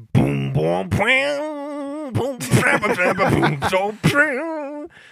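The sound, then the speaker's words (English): A voice imitates the Skype ringtone, singing its melody in a Deep South country style, with bending, drawn-out notes in several short phrases and brief pauses between them. “The Skype song actually in the deep south sounds like this.”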